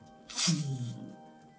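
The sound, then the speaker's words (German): A voice imitates a water wave rising in the distance during a Degenesis role-playing session: a short, breathy, hissing whoosh over a low voiced rumble, lasting under a second. “du siehst in einiger Ferne, das können so 500 Meter sein oder so, ähm, siehst du eine, eine Welle aufsteigen. Das macht so.”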